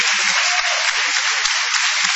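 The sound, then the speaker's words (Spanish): A studio audience applauds the performers in a radio studio with a steady, continuous wash of clapping that holds at an even level from start to finish. “Vamos a extender el aplauso para honrar a Patricio Barton.”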